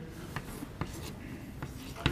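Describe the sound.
Handwriting scratches along as someone writes out a formula, with a few distinct strokes and taps against a steady background.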